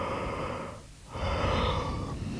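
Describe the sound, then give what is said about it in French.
A person yawns while stretching, producing a steady breathy sound that briefly dips in the middle before swelling again, moderately loud and without any speech. “baille et s'étire.”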